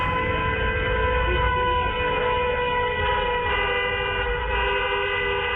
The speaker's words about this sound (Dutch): toeterende auto's en dat soort dingen. Dat gebeurt hier dus vaak.